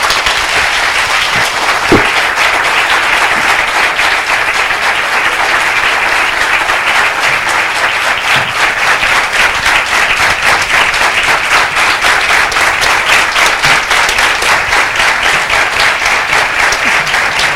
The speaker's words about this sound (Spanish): pido un fuerte aplauso para el Libertador San Martín y sus hombres que nos hicieron libres.